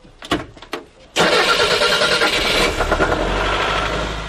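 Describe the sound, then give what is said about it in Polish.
An old car engine starts at a charity rally of communist-era cars such as Polonez, Fiat 126p, Lada and Skoda Favorit. A few short starter cranks give way to the engine catching loudly and running rough and throbbing. “Na starcie polonezy, maluchy, łady czy skody faworytki. Słowem rusza Złombol, charytatywny rajd pojazdami z czasów słusznie minionych. Odpali? Mam nadzieję, że tak.”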